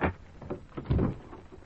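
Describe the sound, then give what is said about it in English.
A door opening: faint scrapes and soft knocks build to a duller, louder bump in the middle, then fade into quieter rustling. “And the opening of this door introduces us to another in the series, The Key.”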